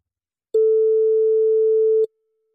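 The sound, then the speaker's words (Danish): A telephone busy tone on a call to Paraguay: one steady, mid-pitched beep lasting about one and a half seconds, clean and even in loudness, with no voices. “det er på sin plads at ringe til Paraguay for at høre, hvordan det går med mor.”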